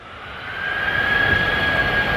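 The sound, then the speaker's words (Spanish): Booming of a singing sand dune, a jet-like roar with a sustained whining tone. It swells in loudness over the first second, then holds steady, with no voices. “Y la duna, que por dentro tiene aire y capas de diferente densidad, pues actúa como una caja de resonancia de una guitarra gigante, para que te imagines. O sea que la duna se convierte en un altavoz natural.”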